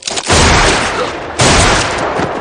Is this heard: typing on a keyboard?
no

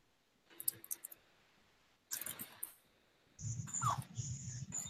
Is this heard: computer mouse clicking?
yes

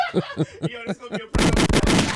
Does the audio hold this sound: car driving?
no

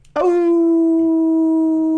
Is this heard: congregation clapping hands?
no

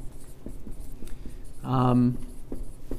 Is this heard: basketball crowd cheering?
no

